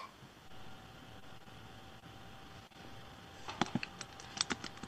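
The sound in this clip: Keyboard typing as someone types a sentence on a computer keyboard: after a stretch of steady fan-like hum, a quick burst of crisp keystrokes fills the final second and a half.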